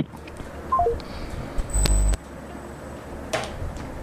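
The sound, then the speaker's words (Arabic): A telephone number is dialed: a few quick beeps step down in pitch, followed by a longer, louder tone, then quiet line noise. “طيب اتصل بالثاني وبعد ما بيكون خلاص عادي. بتصل بالرقم الثاني.”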